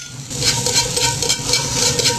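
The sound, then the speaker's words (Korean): King oyster mushrooms stir-fry in a hot pan, giving a steady, fairly loud sizzling hiss with faint rapid crackles running through it. “볶고 그 다음에 새송이를 한번 볶아보겠습니다.”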